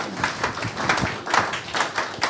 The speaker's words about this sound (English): Give a round of applause.